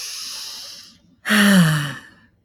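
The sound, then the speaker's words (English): A person audibly breathing out through the mouth while stressed or anxious. A soft breathy stretch fades away, then after a short pause comes a louder, voiced sigh that tapers off. “I breathe in through my nose and I breathe out through my mouth. Sometimes audibly, if I'm really stressed out or anxious, like”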